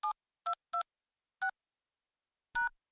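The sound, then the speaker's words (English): Telephone keypad tones entering a password into a wireless carrier's voicemail system: five clear electronic beeps, irregularly spaced, separated by silence. The last tone is slightly longer and louder than the first four. “Welcome to Rogers Wireless Voicemail. Please enter your password.”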